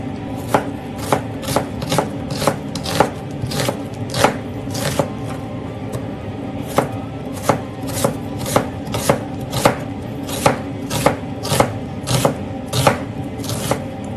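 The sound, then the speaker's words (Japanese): Knife chopping vegetables for a yellow curry: many crisp, evenly spaced chops on a board in a steady rhythm over a low background hum. “さあちょっとじゃあ野菜切りつつもだんだん入れていこうと思います”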